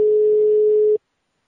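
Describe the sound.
A telephone line tone sounds after the other party hangs up: one steady, mid-pitched electronic tone holds for about a second, then cuts off into silence.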